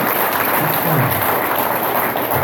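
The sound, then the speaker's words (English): Audience applause for a speaker at a meeting: dense, steady clapping that holds at an even loudness throughout with no voices on top. “Let's give them all, let's give the speaker another round of big applause.”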